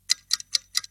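A clock ticks four times in an even, steady rhythm, each tick a crisp, sharp, fairly quiet click with silence between.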